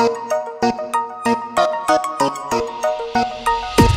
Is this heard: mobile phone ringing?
yes